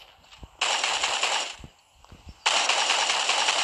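Automatic gunfire from a weapon in a video game, heard as two sustained bursts of rapid crackling shots separated by a brief quieter gap, the second burst running to the end.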